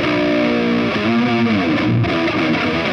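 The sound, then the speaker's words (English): A distorted electric guitar plays a riff with no flanger effect: loud, continuous gritty notes with rich overtones that shift between pitches partway through. “So the riff normally sounds like this.”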